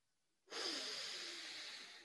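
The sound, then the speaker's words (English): A slow inhale drawn in through the nose, as in a breathing exercise: a soft, airy rush of breath starts abruptly after a short silence, then holds steady and fades slightly as it continues alone. “You're going to inhale slowly through the nose, slowly drawing the air down, directing it in behind the belly button.”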